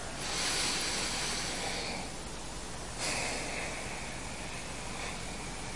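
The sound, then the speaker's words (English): A person takes a deep breath, producing long, airy, hissing breath sounds that stay loud and steady throughout, with no talk. “Take a really deep breath with me right now.”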